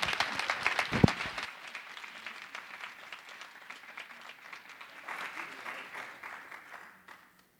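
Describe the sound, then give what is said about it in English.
An audience applauds to welcome guests, with dense, steady clapping that holds for several seconds, then thins and fades out. “Would you please give them a warm welcome into the fellow?”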